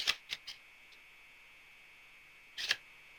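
Cards being handled for a tarot-style card reading: a few sharp, crisp snaps, then a pause and a short riffling burst, set over a faint steady tone.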